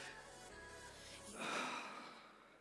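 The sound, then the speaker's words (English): A standing church audience draws one deep breath together, a soft breathy swell that builds and then gently fades, quiet throughout. “we're gonna take a deep breath. Ready? We're gonna do it all together. Okay. One, two, three.”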